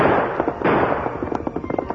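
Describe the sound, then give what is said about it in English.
Gunshots from a fleeing rancher's gun in a radio drama: a dense crackling blast opens, then a quick run of sharp, popping reports follows in rapid succession. “Panic struck him, and he turned again to fire at the masked figure.”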